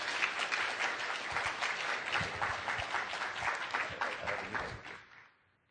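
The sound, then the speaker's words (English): An audience at a Sunday church service held in a high school applauds to welcome a pastor to the front, a dense, steady patter of many hands that holds for about five seconds, then fades quickly to silence. “So Pastor Young, as he comes up, let's give him a welcoming hand”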